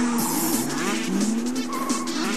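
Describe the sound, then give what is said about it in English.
Car tires squeal during a stunt show at a theme park in Paris. The screech is loud and continuous, with wavering, sliding tones over a dense engine roar. “It's Lights, Motors, Action, Extreme Stunt Show, and it's racing in from Disneyland Resort Paris. Now, I like to call it an all-out tire squealing, flames bursting, motorcycles flying,”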